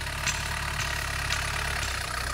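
A Volkswagen Golf 1 Caddy pickup sits at idle, its engine giving a steady, even low rumble with a faint regular ticking running through it.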